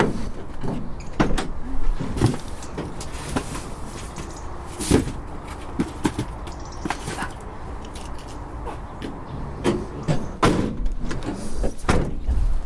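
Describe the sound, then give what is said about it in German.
A parcel delivery driver's car door is opened and shut over and over, giving many sharp clunks, thuds and slams at irregular intervals over steady background noise. “Sie macht die Autotür etwa 577 Mal auf und zu pro Tag.”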